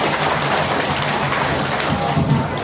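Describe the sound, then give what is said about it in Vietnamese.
An audience at a meditation retreat talk applauds, a dense, steady clatter of many hands clapping together that stays loud throughout with no clear gaps. “Hãy cho ông này tràng pháo tay.”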